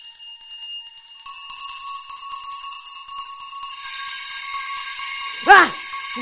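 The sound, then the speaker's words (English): Many bells ring throughout a house, making a sustained, shimmering metallic chime. The tone grows thicker and brighter as more bells join in over several seconds. “what is it? Every bell in that house must be ringing.”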